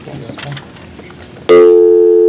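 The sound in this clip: A telephone dial tone sounds while a meeting dials a caller in over the phone line. It is a loud, steady, even tone that starts abruptly after a stretch of people talking and holds for about a second.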